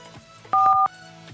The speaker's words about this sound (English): No, I'm calling him anyway.